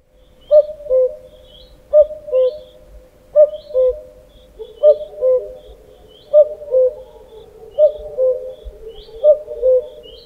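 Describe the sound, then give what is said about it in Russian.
Common cuckoo calling, a clear two-note cu-coo with the second note lower, repeated seven times at a steady, unhurried rhythm, loud and alone. “Кукушка.”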